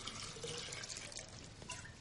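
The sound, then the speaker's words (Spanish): Water is poured from a pitcher into a clay jug, a faint continuous trickling splash running steadily throughout. “saca una jarra de barro y vierte dentro parte del agua del cántaro.”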